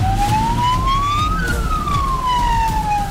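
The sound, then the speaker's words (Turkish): An ambulance siren wails on a highway where drivers are blocking the emergency lane, one slow rise then fall in pitch, loud above a steady, heavy rumble of road traffic. “Siren ve korna uyarısı yapmasına rağmen sürücüler yol vermedi.”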